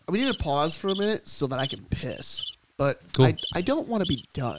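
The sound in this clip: Crickets chirping from a soundboard button, a steady high chirring that runs beneath loud, continuous talk from people speaking over it.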